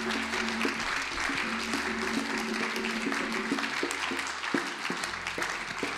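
A church audience applauds in praise during a worship service. The clapping is dense, continuous and fairly quiet, and it keeps an even level throughout.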